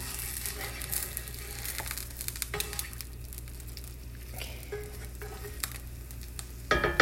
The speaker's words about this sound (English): Okay, now flip the egg over, almost ready to plate them.